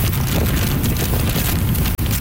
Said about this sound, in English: That's how the storm sounded in Keelung on the northern tip of the island. Heavy rain along with wicked winds of 144 kilometers an hour, gusting to nearly 200.